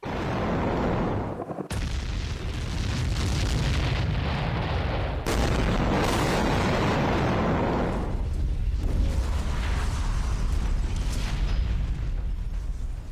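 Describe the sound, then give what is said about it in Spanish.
Explosions over Gaza form a continuous heavy rumble of deep booms and blasts, loud and dense throughout, with a couple of abrupt breaks in the roar and no voices heard. “Y esto que escucháis es el sonido de las explosiones sobre Gaza”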